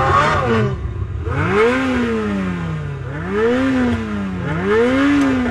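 A Ferrari sports car engine revs in repeated swells, its pitch climbing and dropping several times in a smooth, throaty rhythm, loud and steady with no talk over it.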